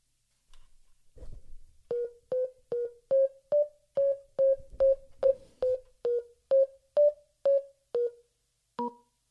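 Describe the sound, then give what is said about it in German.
A telephone number is dialed as a long, evenly spaced run of short keypad beeps at a similar pitch, then one last beep of a different pitch after a brief gap. “Und so wählte sie die Nummer von der Polizei.”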